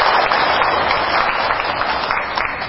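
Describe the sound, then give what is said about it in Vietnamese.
Buddhist lay practitioners at Quang Minh temple give a steady round of applause during an Eight Precepts retreat, dense continuous clapping with no talk over it. “Như vậy thì chúng ta tự khen mình bằng tràng vỗ tay.”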